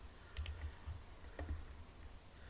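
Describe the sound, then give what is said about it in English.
A computer clicks faintly as someone clicks through a repeated sequence, giving a few soft, quick clicks in small irregular clusters. “Yeah, and this is going the same as it did the last time, so I'm just going to click through it.”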